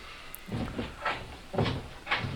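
A wooden door is pulled and rattled without opening. It gives a few rough, clattering bursts at a fairly even pace, moderately loud, with no talk.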